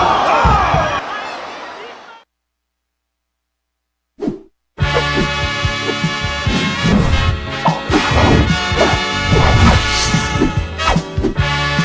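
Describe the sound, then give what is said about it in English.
A wrestler lands a shooting star press: a sharp impact bursts out after a short silence, then a loud, dense crowd roar with repeated thuds continues to the end, with voices over it. “Seen enough, he's standing up. Keep it up top. Shooting star press.”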